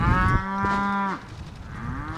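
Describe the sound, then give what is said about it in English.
Beefalo, a beef and buffalo cross grazing on a Missouri ranch, gives a single long, low moo with a steady, rich tone, loud and clear, then breaks off into quieter outdoor background. “Beefalo is exactly what it sounds like, part beef, part buffalo.”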